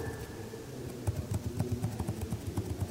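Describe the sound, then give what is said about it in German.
A pencil scratches on cardboard, marking where holes go on a second piece of cardboard in a craft project, in a soft, quick run of short strokes that stays faint throughout. “Jetzt lege ich das erstmal auf das zweite Stück Pappe und zeichne mir mit dem Bleistift”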